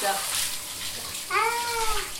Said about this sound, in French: Alors regarde, là, l'eau ça déborde. Je vais couper, d'accord?